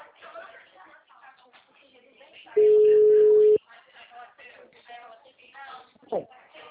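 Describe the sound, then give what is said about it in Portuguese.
A telephone busy tone after a dropped call: a single steady, mid-pitched beep lasting about a second, with people talking over a phone line before and after it. “a ligação caiu? Caiu. Tá me ouvindo agora?”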